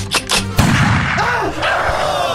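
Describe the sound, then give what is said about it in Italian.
A gunshot sound effect fires once, a sharp, loud crack followed by a rumbling tail that fades out. “Ha sparato a un nostro cameraman.”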